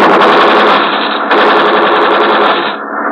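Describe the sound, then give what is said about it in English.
Rapid machine-gun fire as warning shots ahead of a ship: one loud, continuous burst of fast rattling reports lasting about three seconds with no pause and no voices. “We fire in front of him.”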